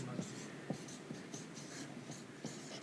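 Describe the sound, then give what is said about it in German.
Handwriting with a pen makes many quiet, short scratching strokes in an uneven rhythm, faint beneath soft voices. “Das ist noch Stress hier schreiben, oder? Wie in der Schule.”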